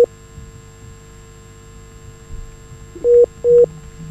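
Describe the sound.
Two short, steady beeps of a call-waiting tone cut in on a telephone line near the end, loud and even in pitch over a faint line hum.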